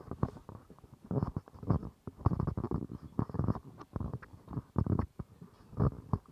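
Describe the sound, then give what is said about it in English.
Handling noise on a handheld dynamic microphone: many low, muffled thumps and rubbing rumbles in irregular bursts, quiet overall, with no talking. “let's do some tests on this handheld dynamic microphone. Handling noise first.”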